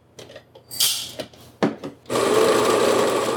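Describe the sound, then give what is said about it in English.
An electric coffee grinder grinds coffee beans: a few scattered clattering knocks and rattles, then a loud, steady, high whirring grind that continues to the end. “we're gonna grind the coffee and be right back.”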